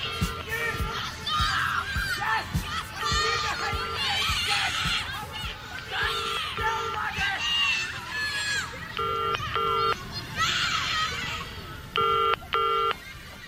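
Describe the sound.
Telephone keypad dialing: a few short bursts of paired electronic beeps stand out over a busy background of voices and crowd noise.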